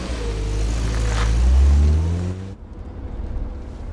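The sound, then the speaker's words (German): A car accelerates hard as the driver steps on the gas. Its engine note climbs steadily and loudly in pitch for about two and a half seconds, then cuts off abruptly, leaving a quieter rumble. “Los, geben Sie Gas.”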